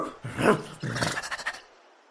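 A dog vocalizing in two short bursts, a single rough woof followed by a quicker run of clipped, pulsing barks that fade out.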